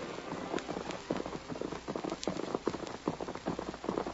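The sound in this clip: Hoofbeats of two horses carrying riders through the night: a brisk, continuous run of overlapping thuds and clops at a steady galloping rhythm, with no voices.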